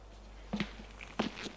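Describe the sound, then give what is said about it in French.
Soft footsteps of a woman pacing in her apartment, a few light, uneven steps spaced apart, quiet against a faint background hum. “Elle ne tient pas en place. Elle marche dans son appartement.”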